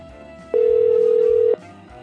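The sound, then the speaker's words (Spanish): A telephone ringback tone sounds as a call is placed on a radio call-in show. A single loud, steady, mid-pitched beep lasts about one second against a quiet background. “Ahí está marcando, ahí está. Contéstenos, por favor,”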